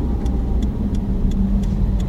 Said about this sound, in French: Excusez-moi, police. Vieille voiture de police sortie d'une vieille série.